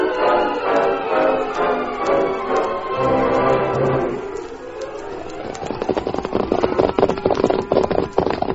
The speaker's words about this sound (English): From out of the past come the thundering hoofbeats of the great horse, Silver.